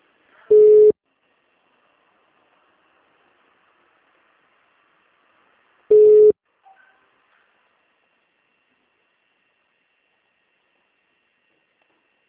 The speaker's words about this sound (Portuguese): Espera um minutinho na linha aí, tá? Tudo bem, sem problema. Só pra gente fazer uma ligação.